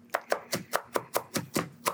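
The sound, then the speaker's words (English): An onion is grated on a microplane in nine quick rasping strokes with a steady, even rhythm. The strokes are fairly faint, and nobody talks. “So I'm just going to grate this little guy up. Usually I could dice it up, but I'm in for ease. You got the microplane out.”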